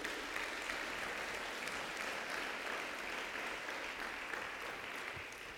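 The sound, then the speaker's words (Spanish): Applause in a church: many hands clapping in a steady, dense, unbroken patter that holds an even, fairly soft level throughout and eases slightly at the end. “Dale un aplauso a Jesús.”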